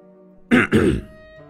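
An elderly man clears his throat in two quick, rough bursts, a short hoarse rasp and then a slightly longer one, over a faint steady tonal background.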